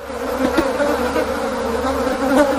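Bees buzz at an insect hotel set up for city bees and bumblebees, a continuous droning hum that stays steady and moderately loud, with no voices.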